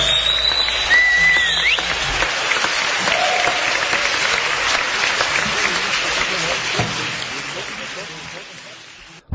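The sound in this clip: An audience applauds after a live music performance, with dense, even clapping that holds for several seconds and thins slightly toward the end.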